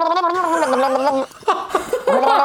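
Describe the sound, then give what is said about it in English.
A person gargling liquid while singing low, producing a wavering, bubbly pitched tone that breaks off in a short pause and then resumes in choppier bursts. “I gargle while I'm doing it? You can that try. Might help. Yeah, yeah. Do you have something you can gargle with? Let's hear it.”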